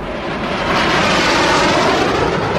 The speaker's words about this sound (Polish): 10 samolotów startuje!